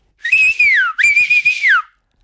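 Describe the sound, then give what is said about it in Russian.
A peasant whistles two loud, clear high notes, each held steady and then gliding downward at the end, with a brief gap between them. “Он еще раз свистнул. Опять никого. Он в третий раз свистнул.”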